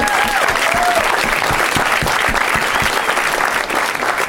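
A studio audience applauds the show's guests, with dense, steady clapping and crowd noise holding at an even loudness throughout.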